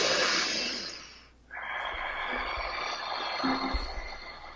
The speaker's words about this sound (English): if you're breathing like that throughout the day, your nervous system is going to be so much more balanced